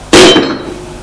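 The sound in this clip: A bloody knife dropped on the ground lands with a single bright metallic clink that rings briefly and decays into quiet.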